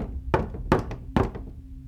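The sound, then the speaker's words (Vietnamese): Sudden knocking on a neighboring room's door: three loud, dull knocks spaced evenly, each with a softer rap after it, and no voices. “Sau đó cửa phòng bên cạnh bị gõ. Tiếng gõ cửa vang lên rất đột ngột, làm cho mọi người giật thót cả mình.”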